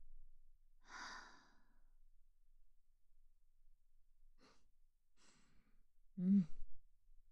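Breathing in and out on instruction: a soft, airy inhale, a few faint breath sounds, then a louder, slightly voiced exhale like a sigh near the end. Quiet overall, with no talk.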